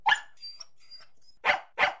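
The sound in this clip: A puppy gives three short, high-pitched yapping barks, one at the start and two close together near the end, with quiet gaps between and no talk.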